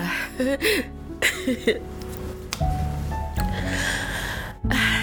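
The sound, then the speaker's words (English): Tearful crying with shaky, wavering sobs and catching, sniffly breaths in a few short bursts early on, followed by a longer stretch of unsteady, breathy sound. “no editing, so you hear all my breathing all through, and the tears and the sobbing, and I like it like that”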